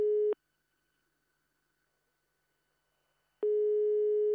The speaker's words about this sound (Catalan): Ja està tornant a sonar el telèfon, eh? Que sona.